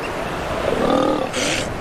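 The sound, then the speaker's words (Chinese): Deep, rough roaring from elephant seals on a beach where females are still nursing their pups, a low rumbling call swelling in the middle before a brief hiss near the end. “与此同时，巨大的象海豹们今年离开海滩的时候也到了。有些雌性象海豹还在给幼崽喂食营养丰富的母乳。”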